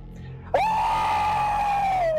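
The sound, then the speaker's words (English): An ear-piercing shriek bursts in suddenly after a quiet moment and holds as one loud, sustained high scream, sliding slightly lower as it fades at the end. “As an ear-piercing shriek cuts through the room, the loudest shriek you have ever heard, taking you all by surprise.”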